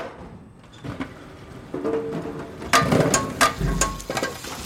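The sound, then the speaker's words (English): Mechanical clattering and rattling of a potato sorting machine running, with irregular knocks and rattles over a low hum that grow louder and busier in the second half. “We think the mystery sound is the tatty sorter working in the background of Mark's current interview about seed potatoes.”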